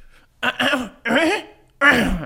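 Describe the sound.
Throat clearing comes in three harsh, rasping bursts separated by short pauses, each a rough, gravelly rumble with no words spoken.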